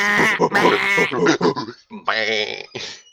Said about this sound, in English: Wait, that's sheep.